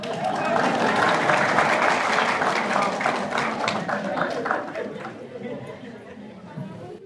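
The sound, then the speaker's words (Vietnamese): Audience applause after a teacher's talk, dense clapping that holds steady for several seconds and then thins out toward the end, with chatter and voices mixed in. “thì mình mừng hoan hô thôi. Tốt rồi, hoan hô mừng.”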